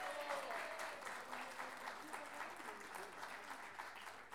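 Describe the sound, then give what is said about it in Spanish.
Audience applause at an improvised poetry tournament, a De Pie Forzado championship: faint but continuous, even clapping from many hands throughout. “Y por último, este gran aplauso es para ustedes mismos por estar acá.”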